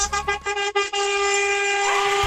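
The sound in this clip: Car horns honking in a honking protest: a few short, broken toots give way to one long, loud, sustained horn blare that holds steady to the end.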